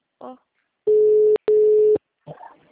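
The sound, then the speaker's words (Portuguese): A telephone busy tone sounds after a dropped call as two steady, mid-pitched beeps of about half a second each, split by a short gap, with brief bits of speech before and after. “caiu a ligação”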